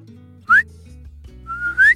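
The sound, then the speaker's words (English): Two rising whistles from a person calling a horse over: a short, sharp upward chirp, then a longer note sliding higher, over a faint low hum. “He does whistle for his horse to come over.”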